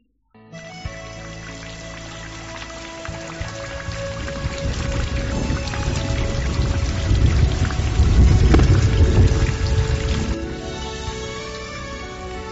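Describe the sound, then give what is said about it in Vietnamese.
Thunder rumbles through a storm of gusting wind and pouring rain: a dense, steady rush of rain runs throughout while deep thunder swells to a loud peak past the midpoint, then eases. “Đêm hôm đó, lại là gió giật mưa tuôn.”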